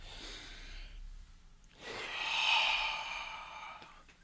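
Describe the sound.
Breathing from a group doing a guided breathing exercise: two breathy, airy rushes, the second longer and louder than the first, with no talk over them.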